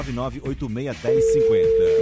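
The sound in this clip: Ringing tone of an outgoing telephone call: a steady, single-pitched tone starts partway through and holds to the end while a voice keeps talking over it.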